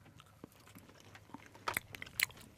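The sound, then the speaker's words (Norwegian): Crunchy bites into cookies: a few crisp, sharp crunches that grow louder toward the end, with softer chewing noises between them, all fairly quiet. “Så nå tenkte jeg vi rett og slett skulle anmelde cookiesen. Ja. Skal vi bite på tre, eller?”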